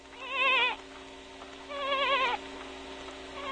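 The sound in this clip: A goat bleats twice, with a pause between: two loud, quavering calls whose pitch wavers throughout, each lasting about half a second.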